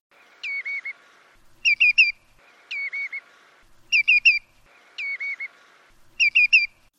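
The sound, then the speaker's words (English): Redshank and greenshank flight calls alternate in six separate bursts, three of each, with no talk. Each burst is about three quick whistled notes. The redshank phrases slur down to a lower pitch, and the greenshank triplets ring higher and clearer. “See if you can hear that difference in the following track, which is going to be bursts of redshank, then greenshank, then redshank, then greenshank, over and over again.”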